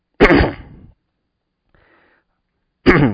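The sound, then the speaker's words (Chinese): Coughing during a sermon: two loud, abrupt bursts separated by a pause of about two seconds, with near silence between them. “对不起啊，今天的咳嗽比较多。”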